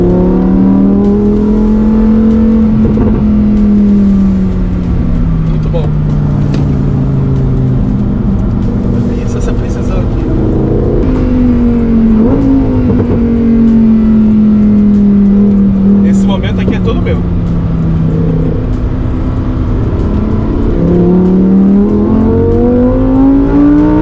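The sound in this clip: Engine of an STO sports car driven on a race track, a loud, steady droning tone whose pitch rises and falls with the throttle throughout.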